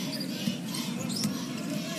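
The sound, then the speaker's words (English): A basketball is dribbled during a basketball game, a few faint, evenly spaced bounces under a steady crowd murmur. “Circling the perimeter on the dribble to reset the offense.”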